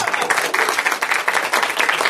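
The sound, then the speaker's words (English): Audience applause at a live comedy stage show, a dense, continuous patter of many hands clapping, fairly loud and unbroken throughout. “Thank you, Beer Backstage, for applauding. It'd be cool if you applauded at the end of the segments.”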